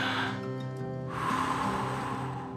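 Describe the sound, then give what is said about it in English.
A deep breath drawn in and slowly let out during a guided quiet moment, a soft airy rush at the start and again as a longer exhale, over a faint sustained musical tone. “take a couple of breaths with me now.”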